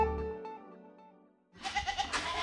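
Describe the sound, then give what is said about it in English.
Goat bleating on a goat farm with a hundred goats: a drawn-out, wavering bleat that slowly fades out, followed by a harsher, noisier burst of bleating. “There are 100 goats at the Canapla goat farm.”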